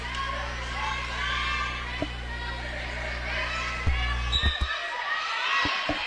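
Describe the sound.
A basketball bounces a few times on the court during a women's basketball game, dull thumps standing out over a steady crowd murmur.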